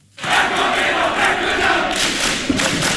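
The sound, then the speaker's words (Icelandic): KA football fans roar at their home ground in Akureyri after a 3-0 derby win over Þór, with a crowd of nearly 2000. The loud cheering bursts in abruptly and stays at full volume, with a thud near the end. “Það ætlaði hreinlega allt um koll að keyra þegar Káamenn fögnuðu 3-0 sigri á Þór í Akureyrar slag bestu deildar karla í fótbolta í gærkvöld.”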